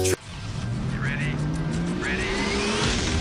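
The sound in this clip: A race car engine revs in a loud, continuous roar whose pitch climbs steadily, with faint higher whines passing over it.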